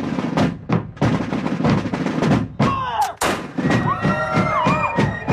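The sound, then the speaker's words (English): Rifle shots at an annual colonial festival in New London, Connecticut, where participants wear colonial garb. Sharp, loud bangs recur through a busy, noisy scene, and higher piping tones sound in the second half. “Mark Murko takes us to the streets of New London for the annual festival, featuring fife and drum music, the sounds of rifles firing off, and participants dressed up in colonial garb.”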